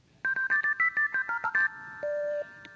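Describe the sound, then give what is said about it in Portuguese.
A home telephone number is dialed, a rapid string of short keypad beeps at shifting pitches, followed by a longer, lower steady tone that repeats after a pause. “Agora vamos ligar para a casa da ouvinte.”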